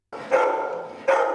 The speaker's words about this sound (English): That's the sound of one of the 841 dogs being cared for by the San Diego Humane Society